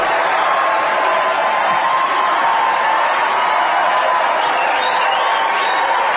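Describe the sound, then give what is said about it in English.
Sustained applause and cheering from a large crowd at a political speech, a smooth, dense wash of noise that holds a constant loud level without breaks. “I left the applause in for effect”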